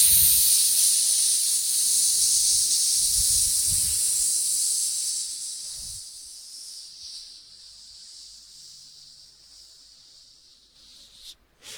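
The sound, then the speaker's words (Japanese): Forceful hissing exhalation pushed out through the mouth during a breathing exercise, a bright, steady hiss lasting about six seconds before fading, with a few soft low puffs underneath early on. “じゃあ吸って、お腹で押し込む。吸って吐きながら、シュッシュッ。”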